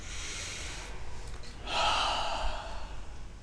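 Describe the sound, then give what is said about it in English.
Deep breaths taken during a guided energy-body exercise: soft airy breathing swells into one long, louder inhale midway, then eases off, with no talk. “Now take a, a few deep breaths. This charges up the energy body.”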